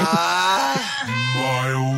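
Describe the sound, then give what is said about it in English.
A mild groan sound effect, a drawn-out voiced moan about two seconds long that slides down in pitch and then holds low and wavering, with no other sounds. “Mild. Groan. Yeah. Don't like it when I get a mild groan”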